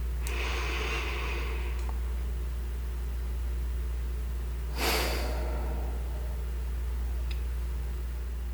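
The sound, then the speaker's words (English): Slow, calming breathing in a guided relaxation exercise: a soft, airy breath near the start, then a brief, slightly stronger breathy gust later, both faint over a steady low hum with no talk. “And a slow breath in. And a calming breath out.”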